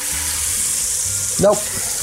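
Food sizzles in a frying pan with a steady hiss, swelling briefly into a louder burst as it is flipped, then settling back to the even crackle.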